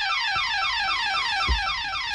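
A burglar alarm goes off, used as a sound effect: a loud, continuous electronic tone warbling in rapid, evenly repeated sweeps, with no pause throughout.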